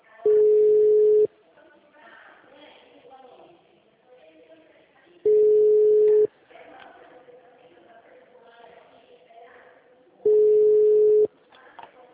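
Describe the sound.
Telephone signalling tones sound on a line reported as busy: three long, steady beeps at regular intervals about five seconds apart, with a voice speaking in the gaps between them.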